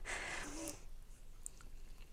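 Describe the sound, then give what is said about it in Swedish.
Soft, faint chewing of a semla bun, a short moist burst of mouth sounds at first that fades into near quiet. “Det är min första semla i år.”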